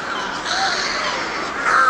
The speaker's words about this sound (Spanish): Tekelili, Tekelili, Tekelili. También lo gritan los pájaros.